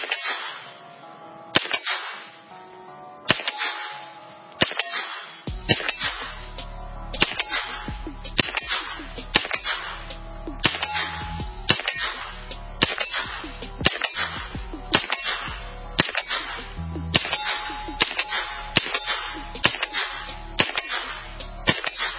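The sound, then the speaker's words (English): A Turkish-made MP5 clone fires many single shots in a steady, evenly spaced rhythm, each a sharp, loud crack with a short ringing tail, continuing for the whole stretch. “and this is made in Turkey. It's an MP5 HK clone made off the same German machines. It's just a lot less money and shoots just as good.”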